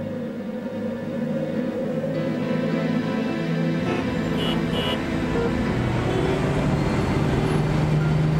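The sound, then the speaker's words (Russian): Cars and buses drive along a road to the airport, making a steady, loud traffic rumble with engine drone and tyre noise that thickens partway through as heavier vehicles pass. No voices are heard. “Дорога к аэропорту. По дороге едут автомобили, автобусы.”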